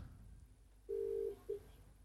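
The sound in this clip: Telephone tones as a call is placed back: one steady, low-pitched electronic beep lasting under half a second, then a brief shorter blip, heard alone over a faint hiss with no voices.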